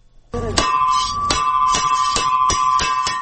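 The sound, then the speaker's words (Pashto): A school bell rings loudly after a sudden start: a sustained metallic tone struck repeatedly at a brisk, slightly uneven pace. “دا راپور د ښوونځي په زنګ پیلېږي.”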